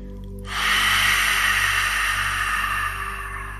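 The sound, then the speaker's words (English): A long exhalation through the mouth, a soft breathy rush that swells quickly, holds steadily for over two seconds and then tapers, over a faint low hum. “Exhale out any worry you might be feeling with an extra long exhalation through the mouth.”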